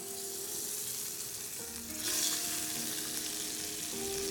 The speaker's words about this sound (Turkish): Şimdi kaymağımızı tavaya alıyorum. Yavaştan bir yandan erisin o.